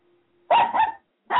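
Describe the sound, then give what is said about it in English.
A dog barks in short, loud, sharp bursts: a couple of barks with a quiet gap between them, and no voices. “Is that the ship's dog? Oh, good God. Give that thing a biscuit. Is that you? It's not me, no. It's my dog.”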